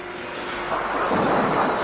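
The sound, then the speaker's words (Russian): A thunderstorm gives off a dense, rushing roar with a deep rumble of thunder underneath. The noise is steady and swells slightly louder toward the end. “Какая ужасная гроза.”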